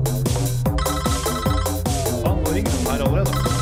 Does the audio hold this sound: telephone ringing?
yes

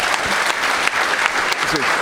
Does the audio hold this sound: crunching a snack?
no

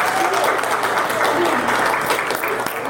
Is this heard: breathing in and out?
no

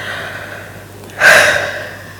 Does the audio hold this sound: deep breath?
yes

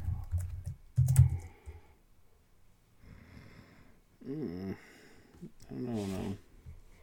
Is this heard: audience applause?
no

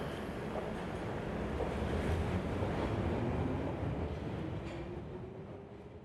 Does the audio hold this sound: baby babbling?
no

